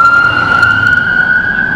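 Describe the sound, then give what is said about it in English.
A police car siren wails as the vehicle speeds past on a London street, one loud, steady, high tone that climbs slightly in pitch throughout, with no voices. “Wow, he's going fast. That was a police car here in London.”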